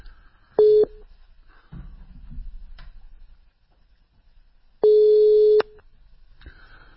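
Telephone line tones while a call is placed: a short steady buzzing tone, then a second, longer one, with faint clicks and low line noise between them.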